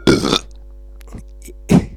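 Two loud, low burps, the first drawn out and the second short, ride over a steady electrical hum.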